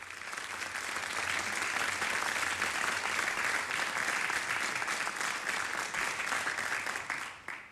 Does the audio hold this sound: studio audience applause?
yes